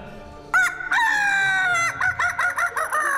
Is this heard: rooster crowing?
yes